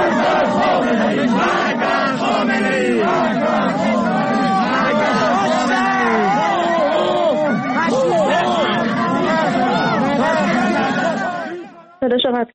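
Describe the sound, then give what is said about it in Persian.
University students chant protest slogans in unison at a visiting official's speech: a loud, dense crowd of voices shouting in a steady rhythm, sustained throughout before an abrupt cut near the end. “دانشجویان دانشگاه شریف در حالی که علیرضا زاکانی در دانشگاهشون حاضر شده بود برای سخنرانی، در مقابل او با شعار مرگ بر خامنه ای رو استقبال کردن. بشنویم صدای این ویدیو رو.”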